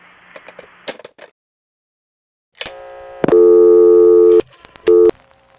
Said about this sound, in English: By the way, in this area we have modern dial tone. This kind of a dial tone first started appearing around 1965.